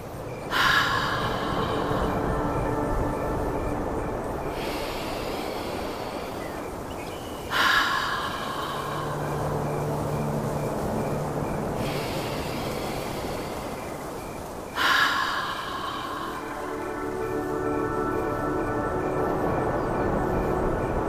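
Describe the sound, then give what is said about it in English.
Slow, deep breaths in a bear-breath breathing exercise: three long breath cycles, each starting with a sharper rush of air and then fading into a sustained, breathy hiss. “I'll do three more bear breaths. If you'd like, you can try a few more too.”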